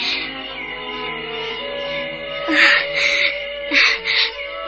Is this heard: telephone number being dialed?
no